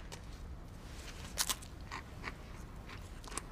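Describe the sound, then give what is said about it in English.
Biting into a dry saltine cracker: a few faint, crisp crunches and crackles at irregular moments, with a sharper snap partway through and a final quick crunch. “I wanted to eat a saltine. Oh, I actually have some saltines. Here, try this.”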